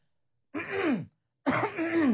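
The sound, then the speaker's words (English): Two throat clearings, each a rough, gravelly burst of about half a second, separated by a short silence. The second is slightly longer and fuller than the first, and no other sound is heard. “okay, that's clear my throat.”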